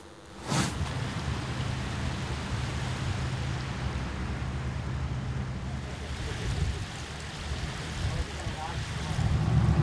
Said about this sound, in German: Wir verlassen jetzt den Elbe-Seitenkanal und fahren direkt auf die Elbe.